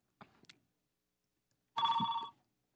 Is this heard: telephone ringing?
yes